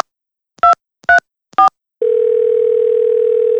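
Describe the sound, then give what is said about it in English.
Three short telephone tones for a number not in service, followed by a long steady tone that holds to the end, all loud and clear with no voices. “Sorry, the number you have dialed is not in service at this time.”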